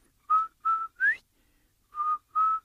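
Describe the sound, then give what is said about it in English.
A person whistles in imitation of a turtle's whistle from a Cherokee story: three short, clear notes at the same mid pitch, the third sliding upward, then a pause and two more matching notes. “if you're out in the woods or out there and out in the field, and you hear this beautiful whistle,”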